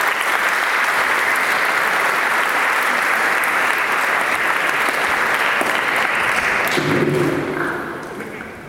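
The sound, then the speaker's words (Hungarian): Applause from an audience at a school awards ceremony, a loud, dense, steady clatter of many hands that holds for several seconds and then thins and fades toward the end. “Később fogják megkapni, tapsoljuk meg őket.”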